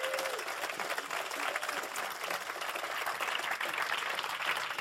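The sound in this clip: Applause from an audience welcoming a bishop to the stage, many hands clapping in a dense, sustained wash that stays fairly even and continuous for several seconds.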